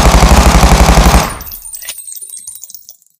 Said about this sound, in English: God damn it. I just shot out the fucking ceiling. Damn it. I'm always doing that shit.